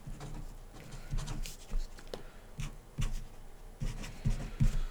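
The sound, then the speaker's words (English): Handwriting as someone quickly jots a note, a run of short, scratchy strokes in an uneven rhythm, fairly soft throughout. “give me one second here to write something down”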